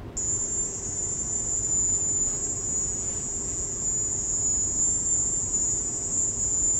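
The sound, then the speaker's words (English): High-pitched, cricket-like sound recorded in Havana residences by US government workers: a piercing, unbroken shrill tone holds steady for the whole stretch over a dense, hissy low rumble, with no pauses or change in pitch. “Americans who heard these sounds in Havana have described slightly different sounds, and even in some of the recordings that the AP has reviewed, there are slight variations. However, this high-pitched cricket sound seems to appear in all of them.”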